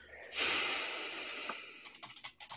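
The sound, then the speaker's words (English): Typing on a computer keyboard, a quick run of light key clicks that follows a broad, breathy hiss. “Man, look at you type.”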